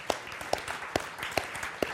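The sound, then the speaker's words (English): A church audience applauds softly. Five sharper claps stand out at an even, steady beat over the quieter patter of the crowd. “Yeah, you can clap. That's sweet.”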